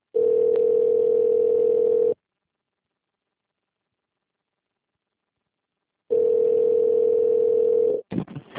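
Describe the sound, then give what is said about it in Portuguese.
Telephone ringback tone while a call is transferred: a steady, low electronic tone for about two seconds, about four seconds of silence, then a second tone that ends in a click and brief noise. “Por favor, aguarde na linha enquanto transferimos sua ligação para o representante.”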